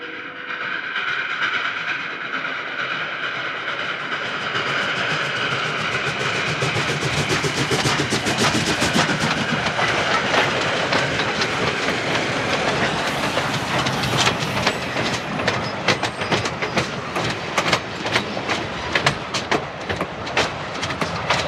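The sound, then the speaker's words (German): A passenger train, the Pennsylvania Special, rolls into a station on a December night, its wheels setting up a loud, steady rail clatter. The rhythmic clickety-clack grows sharper and more distinct toward the end, over a constant hissing rumble. “Pennsylvania Special rollte gerade ein,”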